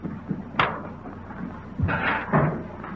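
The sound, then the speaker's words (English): Washing machine lids are shut on washers loaded with dirty sand and detergent: three distinct clunking slams, the first standing alone and the last two close together, over a low background. “And then, if you'll be good enough to close the washers.”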